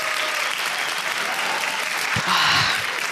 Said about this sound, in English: Please, in-house audience at Treks in the City, give it up for Jackie Cation.